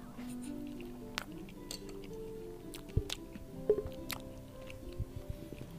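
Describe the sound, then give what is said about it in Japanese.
Soft, wet chewing of a thin pancake piled with whipped cream at an Osaka café, with many faint squishes and small clicking bites in an irregular rhythm and no talk. “このパンケーキをちょっと合わせてみたいと思いますパンケーキ生クリームたっぷりでございますいただきます”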